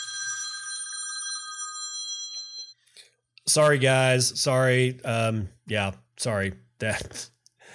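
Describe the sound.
A mobile phone ringtone plays alone for almost three seconds as a steady, bright electronic tone with several clear pitches. It then stops, and a voice begins talking.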